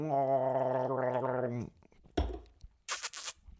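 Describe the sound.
Someone gags while drinking Red Bull, giving a strained, voiced retching groan that lasts over a second. A few short choking coughs and sputtering bursts follow.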